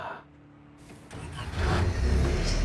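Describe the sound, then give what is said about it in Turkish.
A car engine cranks briefly and catches on the first try, then settles into a steady, louder low running rumble. “Tek marşta çalıştı. İşte dönüyor.”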